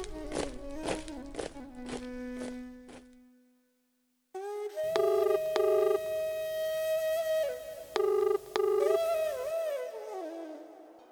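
A telephone dialled to call a brother: a quick run of electronic keypad beeps, then a held tone and a short silence, followed by a louder patterned electronic tone sequence with repeated pulses.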